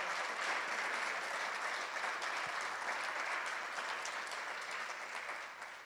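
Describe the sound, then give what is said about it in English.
Audience applause for a DJ at a turntablism event, a dense, steady wash of clapping that holds throughout and eases slightly toward the end. “Can y'all give it up for DJ Rock On?”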